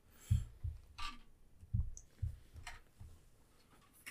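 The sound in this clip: Dice rolling during a tabletop role-playing game with d6 and d10 dice: a few faint clicks and dull knocks in an irregular patter, with no talk.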